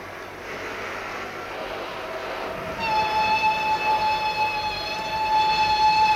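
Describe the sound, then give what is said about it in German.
A locomotive sounding impatiently, a steady multi-tone horn or whistle that starts partway through and holds over continuous rail rumble. “Die Lokomotive mahnte ungeduldig.”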